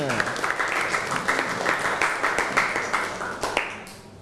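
Students clap their hands together in a classroom, a loud, even patter of many hands that keeps going steadily before dying away quickly at the end.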